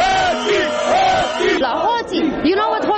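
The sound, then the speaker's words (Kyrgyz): Protesters in Romania chant "thieves" together, a dense, loud crowd of shouting voices. The chant pulses steadily and rhythmically throughout, with no pause. “Демонстранттар эмне деп жатышат? Билесизби? Алар уурулар. Уурулар деп жатышат.”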